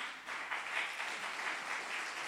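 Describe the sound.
Audience applause for a person seated in the crowd: a dense, steady wash of clapping at even loudness throughout, with no talking.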